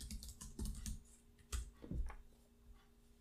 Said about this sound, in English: So for those of you at home, don't mind if you hear the typing in the background.